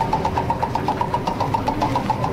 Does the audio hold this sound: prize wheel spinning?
yes